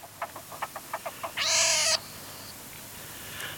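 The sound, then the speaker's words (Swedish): Young marten kits call: a quick run of short, sharp chirps, then one louder, harsh, sustained squeal, followed by quiet with faint traces of calling. “då måste vi lyssna lite på hur det låter om mårdungar.”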